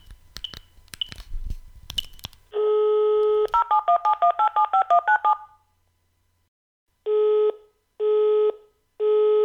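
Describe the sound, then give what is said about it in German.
Telephone dialing tones and a busy signal from a call to a radio station studio: clicks and handling noise, then a steady tone, a quick run of beeping dial tones, a pause, and repeated loud busy-signal beeps. “Diesmal werde ich das Studio des April FM anrufen. Schauen wir mal.”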